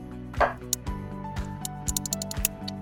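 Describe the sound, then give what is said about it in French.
A knife chops carrots and courgettes roughly into chunks, with many sharp, quick taps on a board over steady background music. “je commence par des carottes que je coupe grossièrement en tronçons, des courgettes également grossièrement”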